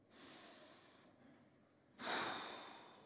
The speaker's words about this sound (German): Atme einmal durch.